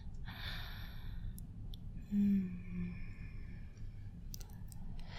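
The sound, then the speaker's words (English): A deep, steady breath drawn in, heard as a soft, airy hiss that swells and fades over a low, constant background hum, with no talking. “Take deep, steady breaths and concentrate on your body. Breathe with me, baby. In.”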